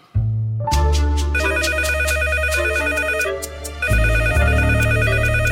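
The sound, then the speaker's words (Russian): A landline telephone rings with an electronic tone, steady and loud, pulsing in a repeating pattern over a sustained hum. It continues without a break for the whole stretch, with no voices. “Что, больше некому трубку снять?”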